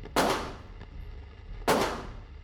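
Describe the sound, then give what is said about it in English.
Two sharp pistol shots fired into the air, spaced about one and a half seconds apart. Each crack is followed by a decaying tail, with faint background noise between them. “Noyox pulled out his pistol and began firing into the air.”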